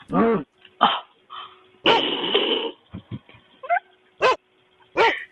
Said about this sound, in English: Yo, we got a dog back here.